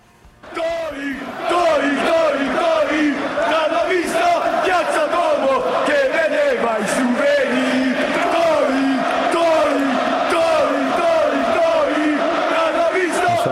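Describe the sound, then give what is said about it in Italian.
Football fans chant an insult at a player. A loud, sustained chorus of massed male voices rises after a brief quiet start and keeps a rhythmic, rolling cadence throughout. “Se lo sei stato, credo tu sia stato in linea di massimo uno dei giocatori più insultati del mondo occidentale. Esatto, no? bravo, sì. Allora, ti faccio sentire di nuovo questo coro.”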